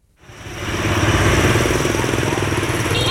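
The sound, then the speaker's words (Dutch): Mopeds buzzing through the narrow streets of an old town in Vietnam form a dense, continuous engine drone that swells in over the first second and then holds loud and steady. “Hier in de oude binnenstad zijn inderdaad enorm veel brommertjes... zoals je zou verwachten van Vietnam, in de smalle straten. En het is daarmee veel herrie op straat.”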